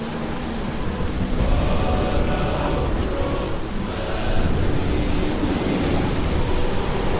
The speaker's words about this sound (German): Das ist nur der Sturm.